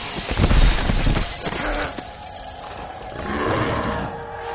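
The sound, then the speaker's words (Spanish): A glass roof shatters as two bodies fall through it in a science-fiction fantasy film scene. A loud crashing burst of breaking glass over a low rumble is followed by a quieter, lingering tail. “Le tira de una de las alas y ambos caen destrozando un techo de cristal.”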